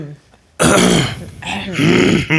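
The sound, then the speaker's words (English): Throat clearing to loosen phlegm: loud, rough, partly voiced rasps in close succession, lasting nearly two seconds. “Got a little phlegm in my throat.”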